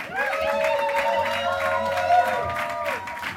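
Audience applause and crowd noise for a Moroccan Gnawa master musician after a traditional Gnawa band's set: dense, steady clapping under a sustained, wavering tonal sound.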